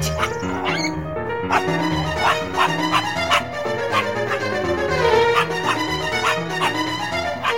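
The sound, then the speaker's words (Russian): A small house dog, a lapdog, barks in a rapid, high-pitched series of many sharp yaps, fairly loud and steady throughout, over a continuous tonal background. “Действительно, собачка хозяйки, которая все время спала на подушке в углу, вдруг проснулась. Обнюхала чужих и с лаем бросилась под”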